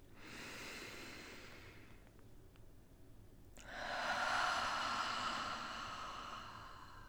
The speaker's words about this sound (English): Take a nice, deep belly breath.